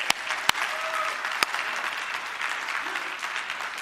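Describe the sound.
A church audience at New Life applauds to welcome first-time visitors: dense, steady clapping fills the whole stretch, with a few sharp individual claps standing out near the start.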